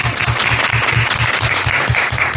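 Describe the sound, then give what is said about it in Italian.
Sustained applause from a newsroom staff, a thick, continuous clatter of many hands holding an even, fairly loud level from start to finish. “L'applauso della redazione era tutto per Antonio Six Mancuso.”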